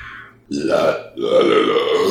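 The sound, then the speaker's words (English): A person lets out a long, low, rumbling burp in two drawn-out pulses with a short break between them. It is loud and close, with no talk over it. “Okay, I thought you were squinching because I burped.”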